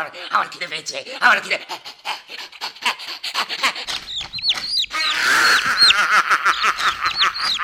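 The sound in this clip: Chicken clucking and squawking in quick, busy bursts, growing denser and louder in the second half with sharp, rising chirping calls.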